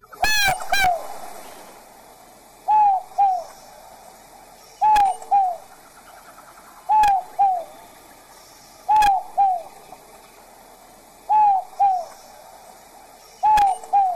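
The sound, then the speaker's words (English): An Inca dove gives mournful, low two-note coos, repeated at a steady pace about every two seconds with little variation. The coos stand alone among a few sharp clicks. “it has one of the easiest bird calls to memorize if you can visualize its mournful coos sounding like it's saying, no hope, no hope, no hope. So try visualizing those words as we listen to an Inca dove here.”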